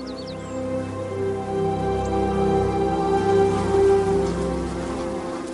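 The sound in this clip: Bees in a hive produce a dense, continuous buzzing drone with layered humming tones. It holds steady throughout with no talking.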